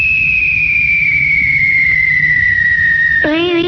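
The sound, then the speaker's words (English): A steady, high-pitched electronic contest cue tone, the kissing tone, holds for about three seconds and drifts slightly lower over a low rumbling hum. A short warbling sound then cuts in abruptly. “Sometime in this hour, you'll hear the kissing tone. It sounds like this.”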